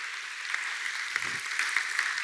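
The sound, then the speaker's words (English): An audience applauds at a book event in Washington, D.C., giving many quick claps in a steady, even patter with a few sharper hand strikes popping out, sustained at moderate level throughout. “this is one of the first in-person book events in Washington, D.C. in 2 years, and you're here, and you made it happen, and give yourselves a round of applause for that.”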